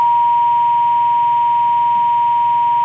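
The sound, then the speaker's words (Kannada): A steady, unbroken single-pitch phone tone from a disconnected call holds for the full three seconds at an even level, with a faint low murmur underneath. “Okay, ಕರೆ ಮಾಡಿದ್ರು ಆದರೆ ಆ ಕಾಲ್ ಒಂದು disconnect ಆಗಿದೆ.”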